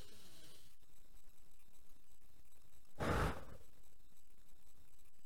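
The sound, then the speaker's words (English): A single sharp breath is puffed into the microphone midway through, loud against otherwise faint, quiet background hiss. “I can't believe I just panted into the microphone, but we'll see how that goes up on the recording.”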